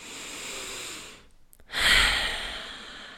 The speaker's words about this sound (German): Nimm nochmal vielleicht einen tiefen Atemzug.